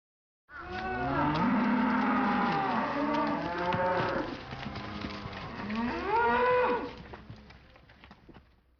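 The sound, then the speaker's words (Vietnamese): A cow moos in long, loud, drawn-out calls with bending pitch, starting after a brief silence and dying away near the end. “Đây là tiếng bò kêu, trong tiếng Nhật được diễn tả bằng từ momo.”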